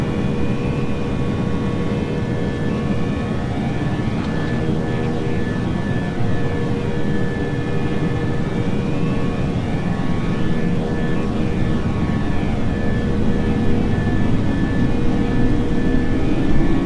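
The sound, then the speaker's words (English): Jet airplane taking off, a continuous loud roar of engines with steady whining tones, holding level and swelling slightly toward the end. “These will actually take off this time. V1, rotate. V2. There it goes.”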